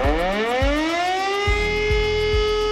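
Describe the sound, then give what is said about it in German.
A civil defense warning siren sounds during a nationwide test on warning day, a loud sustained wail that rises steadily in pitch across the whole clip, with a few low thuds beneath it. “um 11 Uhr werden wieder die Warnsysteme getestet”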